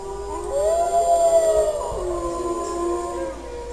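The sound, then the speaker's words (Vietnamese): Wolves howling together in a large chorus: long, sustained, wavering tones that glide slowly, one howl held clearly over the first half while other howls overlap it at a similar steady loudness. “Liền ngay sau đó, nghìn vạn con sói cùng hòa giọng hú lên, âm hưởng chấn động cả trời xanh.”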